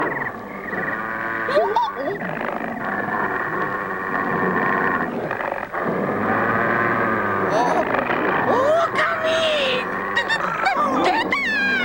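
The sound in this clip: Honking, goose-like bird calls recur among continuous overlapping talk, with a few sliding, nasal cries standing out above the dense mix.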